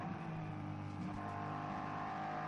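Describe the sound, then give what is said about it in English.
Steady, droning engine roar from GT race cars on track, with a BMW running close behind another car. The engine note stays loud and even throughout, with no clear passes or gear changes. “And Chan Guven is all over the rear spoiler of the BMW of Gamotna Racing.”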